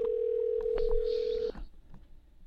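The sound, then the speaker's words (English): Telephone dial tone heard while placing a call: a steady, unbroken pitched hum that holds for about a second and a half, then cuts off, leaving faint background noise. “let's see if we can get somebody on the phone here.”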